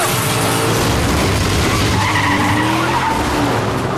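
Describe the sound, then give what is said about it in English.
Tires squeal and skid loudly as a leading black car loses control after its tires are shot out during a chase, a dense, continuous screech of rubber and engine noise sustained throughout. “He bides his time until he has a clear bead on the tires of the leading black car and then deftly shoots them out. Losing control, the car hits a truck and rolls.”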